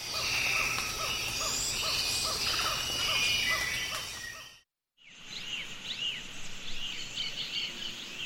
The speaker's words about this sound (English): That's the sound of the Osa Peninsula in Costa Rica before and after logging in the late 1980s.